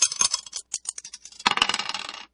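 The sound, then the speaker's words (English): Dice are thrown, a quick run of sharp clicks and clattering taps followed by a denser rattling burst as they tumble to rest, with no voices. “And let's just throw the dice to see what we're going to play.”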